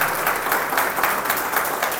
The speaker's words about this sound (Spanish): Denle el aplauso si se lo va a dar al Señor, por favor.